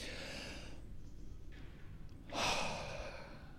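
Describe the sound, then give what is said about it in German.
A single deep breath is drawn in, a demonstration breath that lifts the chest and shoulders. It comes as a sudden breathy rush about two-thirds of the way through, over a steady low hiss. “Nehmt mal einen tiefen Atemzug”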